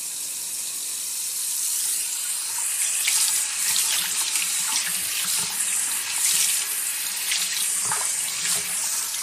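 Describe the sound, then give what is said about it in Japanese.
Warm water pours over a person's head during a hair wash, a continuous soft gushing and splashing from a tap-like stream that runs steadily for about nine seconds with small fluctuations in intensity. “お湯を頭にかけていきますから、目を閉じててくださいね。”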